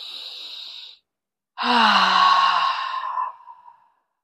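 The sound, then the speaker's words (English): A deep breath during a guided relaxation exercise: a soft, steady inhale, a brief pause, then a longer sighing exhale that fades out gently. “Now another. And our third breath.”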